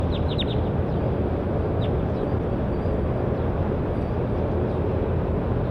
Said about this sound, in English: That was bird 4-5.